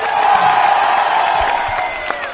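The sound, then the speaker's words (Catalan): Crowd in the main town square of Montblanc cheering and applauding as referendum results are announced, a steady, loud roar of voices and clapping that holds throughout. “Aplaudiments a la plaça Major.”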